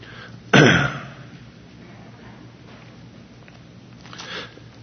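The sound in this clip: A single loud, rough throat clear breaks over a steady low hum during a Bible reading, then the rest is quiet.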